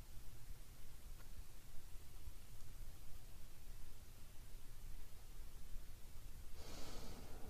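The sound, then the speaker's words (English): Faint breathing during a guided breathing meditation, mostly a soft steady hiss, with a single airy breath standing out near the end. “let's sink into several minutes of just basic breathing meditation.”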